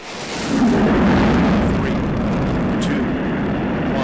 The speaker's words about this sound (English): The space shuttle Atlantis blasted off from Kennedy Space Center in Florida today.